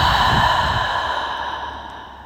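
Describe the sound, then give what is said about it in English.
A deep breath taken during a mindfulness meditation exercise: one long, breathy exhale that starts fairly loud and slowly fades, with no other sounds. “we'll take a deep breath in through your nose and out through your mouth.”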